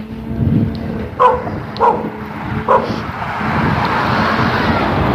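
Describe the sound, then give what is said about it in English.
A small terrier with no collar or leash barks three sharp times from across the street. The yaps are spaced about a second apart over a steady rumble of passing traffic. “Little terrier with no collar or leash barking at me from across the street.”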